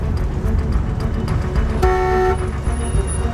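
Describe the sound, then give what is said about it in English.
A car horn sounds one brief, loud toot, about half a second long, over a steady low rumble of slow-moving traffic. “driving in slow-moving traffic, hooting his horn in frustration.”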